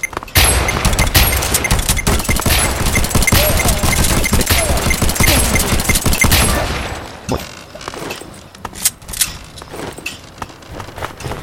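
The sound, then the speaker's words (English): Shotgun fire in a video game, a loud, dense barrage of many shots blasting for several seconds, then dropping to a few scattered, quieter bangs and thuds. “Shotgun kill. Thank you.”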